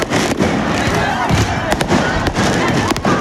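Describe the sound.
Firework mortar shots go off during a street riot, many sharp cracks and bangs in quick irregular succession over a constant loud roar of crowd noise.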